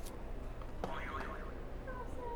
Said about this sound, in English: You can go ahead and hit a buzzer.